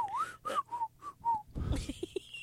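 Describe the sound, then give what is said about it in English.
A person whistles a short melodic phrase of about five clear, mid-to-high notes, the first sliding upward. Other noises follow the whistled notes. “I'll just look at the other party and whistle.”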